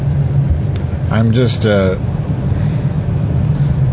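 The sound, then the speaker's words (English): Inside a moving car, a steady low engine and road rumble runs throughout, and a voice talks briefly in the middle. “I'm in the car. I'm heading to work.”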